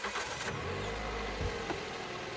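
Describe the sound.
A car engine starts and runs with a deep, low rumble that holds steady for a second or two before settling, heard alone without talk.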